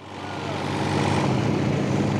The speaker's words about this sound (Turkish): Jeneratörü çalıştırıyorum.